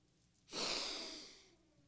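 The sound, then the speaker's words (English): A person takes a single long, airy breath in, which rises quickly and then slowly fades over about a second, quiet and alone. “That breath is from God. It's a provision of God.”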